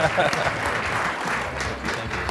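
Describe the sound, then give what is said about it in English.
Sustained round of applause from a workshop audience, a dense, steady roar of many hands that holds at an even level from start to finish. “Give these guys a round of applause.”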